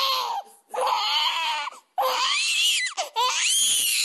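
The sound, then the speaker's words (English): A colicky six-week-old baby boy cries in loud, high, strained wails, about four long cries broken by short gasping pauses, with the pitch wavering and rising in places. “is a colicky baby. He cries for hours and nothing seems to help.”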